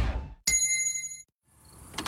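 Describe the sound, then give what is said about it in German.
A single gong strike signals a drink break: a bright, ringing tone with layered overtones that sustains under a second, then cuts off. “Trinkpause. Der Gong.”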